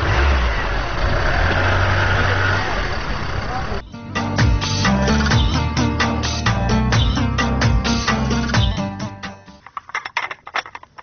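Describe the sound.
A car engine runs and revs: a loud, rough rumble, then an uneven, pulsing stretch of revving that grows choppier toward the end. Voices can be heard along with the engine.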